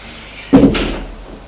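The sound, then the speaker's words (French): A door opens with a single sudden knock-like sound that fades over about a second, standing out against a faint, steady background hiss. “La porte qui s'est ouverte.”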